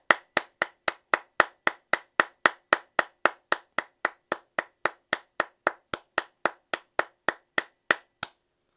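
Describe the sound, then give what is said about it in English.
Steady, evenly spaced hand clapping from an audience giving a retiring figure a hand at a Twins fan tribute: many sharp, crisp claps in a regular rhythm at even loudness, with no voices. “Congratulations, man. Let's give this man a hand.”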